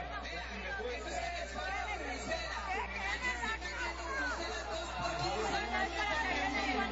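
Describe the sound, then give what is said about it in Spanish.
A rowdy crowd fills Parque Lineal in Cartago with dense, overlapping chatter and shouting. The hubbub holds at a steady level throughout. “Esta bullaranga es en el Parque Lineal ayer en Cartago. Escuchemos.”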